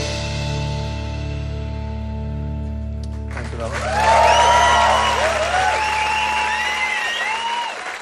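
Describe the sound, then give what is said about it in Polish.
Applause, cheers and whoops from an audience in a small recording hall in Brussels as a live band's song ends; sustained music tones stop at about three seconds, then loud, dense clapping with high whistles runs to the end. “Tutaj oklaski już są przeogromne, jak na tę małą salę nagraniową w Brukseli, ale jednak przeogromne.”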